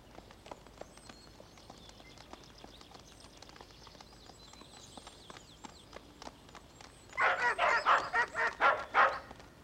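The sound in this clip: A dog barking as it runs after girls toward an apartment building entrance: faint tapping steps at first, then a quick run of loud, evenly spaced barks near the end.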